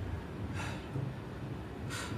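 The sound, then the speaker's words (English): Labored breathing from a woman rising to her feet: two faint, harsh, airy breaths, one early and one at the end, over a steady wash of noise. “And with labored breaths, she rises to her feet.”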